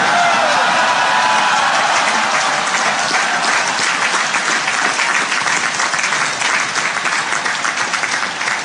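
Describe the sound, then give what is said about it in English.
Cadets at a football stadium applaud, a sustained, dense clatter of many hands clapping at a loud, fairly steady level that eases slightly toward the end. “Those of you in the end zone might have cheered a little early”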